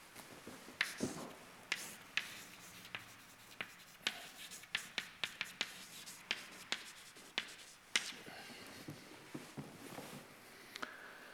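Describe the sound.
Mathematical terms written out by hand produce a faint, irregular series of scratchy strokes and small taps as the pen moves and lifts, with many short bursts spaced across the stretch and quieter rubbing between them.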